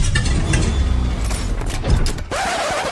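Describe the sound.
A car engine cranks but fails to start, a loud, rough mechanical churning and grinding that runs continuously and shifts in tone in its last second.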